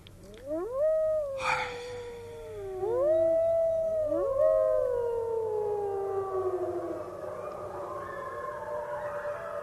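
Wolves howling: several long, overlapping howls that rise briefly and then slide slowly downward in pitch. They are fairly loud and fade out gradually, with no talking.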